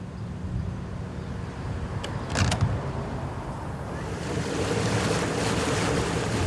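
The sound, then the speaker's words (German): Water washes and wind blows around a vegetable-laden Ewer, a traditional cargo sailing boat from the Vierlande, as it reaches the harbour area after hours under way. The steady surf and wind noise carry a few faint creaks near the middle. “Der Gemüse-Ewer aus den 4 Landen hat inzwischen Hafengebiet erreicht.”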